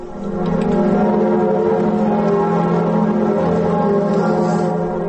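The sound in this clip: Cathedral bells of Notre-Dame in Paris toll at noon in mourning, a sustained, layered ringing of deep overlapping tones that swells in at the start and holds steady and loud throughout, with no voices.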